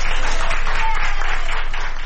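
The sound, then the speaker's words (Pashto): Doctors and nurses at a hospital in Madrid applaud a woman over 100 years old who recovered from coronavirus, a loud, dense, steady patter of many hands clapping together. “د اسپانیا په پلاسمینه مادرید کې ډاکټران او نرسان هغې مېرمنې ته چکچکې کوي چې تر 100 کلونو تیره ده او له کورونا رغېدلې ده.”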